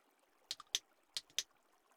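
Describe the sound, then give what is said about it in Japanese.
Hot water is poured over the head during a hair wash, heard as a few short, soft splashes and trickles. They come in brief bursts with quiet gaps between them. “お湯をかけますよ。よし、はい、頭から洗っていきますね。”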